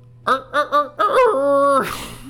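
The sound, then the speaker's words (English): A human voice imitates a chicken-like laugh: three short, clucking bursts followed by a drawn-out, nasal squawking note that breaks into a breathy rasp at the end. “It's like a chicken laugh”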